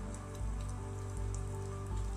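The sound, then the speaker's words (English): Rain pours down as a steady, soft hiss, with scattered drops pattering across it and a low constant rumble underneath. “The rain continues to pour as the two of you make eye contact.”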